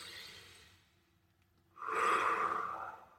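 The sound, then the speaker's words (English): A deep breath: a soft, airy inhale, a short pause, then a loud, long exhale that holds steady before tapering off. No voices. “take a deep breath in, do a big exhale.”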